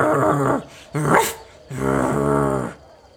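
Growls from a small old dog that sounds agitated: three rough, throaty growls, each lasting about half a second to a second, with short gaps between them and no talk.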